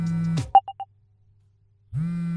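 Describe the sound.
A phone ringing with three short, bright beeps at the same pitch in quick succession, sounding alone in a gap between stretches of a steady low droning tone.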